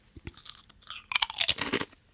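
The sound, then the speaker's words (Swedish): Crunchy potato chips being eaten, with many sharp, dry crunches and chewing bursts that grow denser and louder in the second half, heard alone without talk. “vilket snacks tror du jag föredrar? Chips, för du håller chips i handen.”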